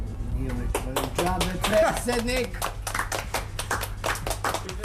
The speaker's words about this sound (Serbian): Nije uvežbavan ovaj aplauz, ali stvarno, na ovako objašnjenje, šta čovek da doda?